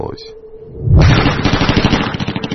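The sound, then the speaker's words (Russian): Deafening burst of automatic gunfire, rapid evenly spaced shots beginning about a second in and continuing without pause to the end, after a quieter low droning tone. “Оглушительная автоматная очередь прорезала повисшую на мгновение тишину. Она была какой-то просто бесконечной.”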